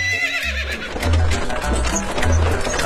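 A horse whinnies loudly while pulling a carriage on a hurried, bumpy journey, followed by the dull clopping of hooves. Low thuds recur in a loose rhythm beneath the fading neigh.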